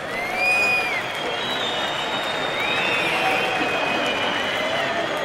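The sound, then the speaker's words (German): Bullfight crowd in Spain voicing disapproval: a dense, steady roar of many voices, with shrill whistles rising above it several times. “Eleganz und Pose im Angesicht des Todes werden zu einem blutigen Gestochere, das vom Publikum mit Missfallensäußerungen bedacht wird.”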